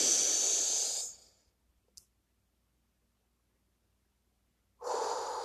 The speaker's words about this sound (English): And breathe out. Relax. Clear your mind. Breathe in.